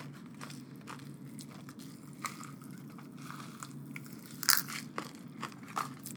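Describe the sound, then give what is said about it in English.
Pop Rocks candy crackling in a mouth with Coke: faint, scattered tiny snaps and fizzy crackles over a soft, steady hiss, with a few sharper pops near the end. “That was a lot of pop rock. The first couple snaps when you first put the coke in your mouth hurt.”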